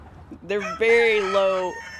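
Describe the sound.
A rooster crows in a backyard where chickens are kept, giving one loud, drawn-out call of about a second with a strong, harmonic, voice-like tone that swells and then breaks off.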